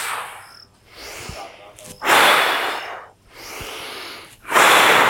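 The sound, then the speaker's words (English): Forceful, powerful breathing during a breathing exercise that fills the lungs: repeated loud, rushing breath strokes in a steady rhythm, softer strokes alternating with stronger, harsher ones. “Powerful breaths.”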